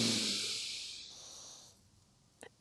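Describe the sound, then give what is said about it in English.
A slow breath drawn in through the nose: a breathy, airy rush that starts loud and gradually fades over a second and a half into silence, followed by a couple of faint clicks at the end. “Inhale through your nose.”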